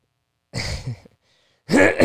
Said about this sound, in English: someone said I cleared my throat too much, so just wanna get that out there.